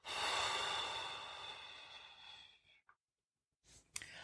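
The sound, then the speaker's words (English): A deep breath drawn in and blown out during a guided relaxation breathing exercise: a long, loud, airy whoosh that fades over a couple of seconds, then a pause and a brief soft breath sound. “take another deep breath and blow out”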